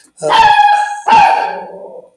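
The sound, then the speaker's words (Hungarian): A dog gives two drawn-out, tonal barks, almost yelping. The second bark trails off into a longer, fading whine. “Azt hiszem, hogy Teddy kutya megadta a végszót”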